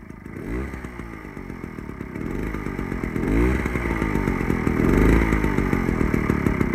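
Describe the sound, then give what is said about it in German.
A moped engine drives past with a buzzing, raspy drone. Its pitch rises and falls several times as the engine revs, and the sound grows steadily louder toward the end. “Hören wir uns diese Geräusche doch mal alle gemeinsam an, damit wir sie dann unterscheiden können, wenn es drauf ankommt. Also, zuerst das Moped.”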